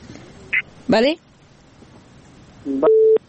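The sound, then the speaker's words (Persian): A telephone line tone sounds as a caller connects to a call-in show: a steady, mid-pitched tone near the end, after a brief burst of voice, over a low hiss. “تماس دیگه نداریم. یک تماس دیگه برقرار شده.”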